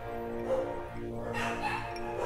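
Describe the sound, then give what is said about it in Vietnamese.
A group of neighbours' dogs barks and yips almost without a break. The sound is fairly faint and blends into a steady background. “Ok, dừng 2 phút để cho đàn chó nhà hàng xóm sủa xong đã.”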